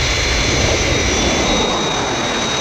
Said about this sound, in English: Aircraft approaching glide path. 4 miles to threshold.